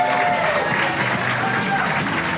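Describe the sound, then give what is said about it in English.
An audience at a live basketball talk event cheers and applauds, a dense, even roar of clapping with raised voices woven through it, steady and loud throughout. “I don't know if they're cheering for you guys or Kawhi now, but give it up for these three lovely gentlemen.”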